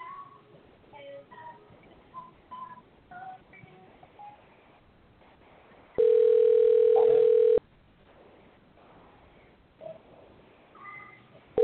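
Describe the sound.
A steady telephone tone sounds while a caller is being dialled: one continuous, loud, even tone of about a second and a half. Faint, murmuring background sound comes before and after it.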